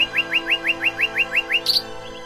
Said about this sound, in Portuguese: O dia surge e os pássaros cantando alçam voo acima da tua cabeça.